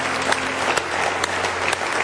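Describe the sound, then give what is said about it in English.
Church audience clapping in praise during a sermon: a loud, steady patter of many hands with a few sharper individual claps standing out. “Give him one more big old hand clap of praise if you love him.”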